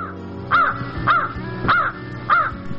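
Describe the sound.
A crow caws four times in a steady rhythm. Each caw is harsh and rasping, about half a second apart, over a low, constant background hum.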